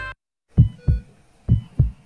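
A baby's heartbeat gives four muffled, low thumps in two quick lub-dub pairs. It keeps a steady rhythm at moderate loudness, with no voices.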